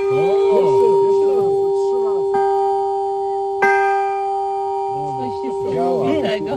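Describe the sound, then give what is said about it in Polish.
An 88-year-old church bell, once hidden by a monk and rung for the first time since 1941, gives a long sustained humming tone with a few fresh clangs, while people talk over it. “Tyle lat się nie zepsuł. Tak dzwoni dzwon. Więc pierwszy raz od 41 roku. Ale 88 lat i wciąż nieźle brzmi.”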